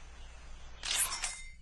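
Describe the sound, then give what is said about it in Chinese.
Camera shutter clicking as a photo is snapped in a children's cartoon, a bright, crisp two-part snap that is brief and soft above a quiet background. “要帮鳄鱼住的小河拍张照，你得说咔嚓，”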